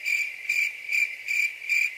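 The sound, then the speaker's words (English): Crickets chirp alone in five evenly spaced trilling bursts, a bright, high-pitched pulsing tone repeating about every half second. “It's just silence. Crickets.”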